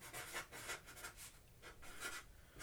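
Faint scratchy rubbing of a marker on a board as a film title is written, a run of short rasping strokes with brief pauses between them and no talk.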